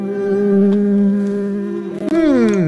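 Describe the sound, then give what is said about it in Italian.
A housefly buzzes around a kebab with a loud, steady, droning hum that holds one pitch for about two seconds, then wavers and bends downward near the end. “via mosca maledetta, via mosca da mio kebab, vai via!”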